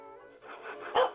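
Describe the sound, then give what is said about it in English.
A small dog barks in short, high, yappy sounds. A louder, sharper bark comes right at the end. “That's what he's barking. Little tippy dog.”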